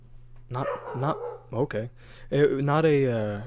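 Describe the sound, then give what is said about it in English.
A tiny dog barks a few times, its short yappy barks sounding deeper than its small size, over a steady low hum. “that was my dog Bean. My bad. He sounds like a big boy. He's really tiny.”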